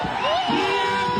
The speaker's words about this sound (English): And that's the sound of demonstrators cheering after the minister posted his resignation letter on X.